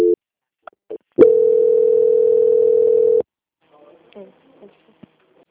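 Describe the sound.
A steady, unbroken telephone line tone hums for about two seconds while a bank call is transferred to another department. A few short clicks and blips come before it, and faint brief voice-like sounds follow.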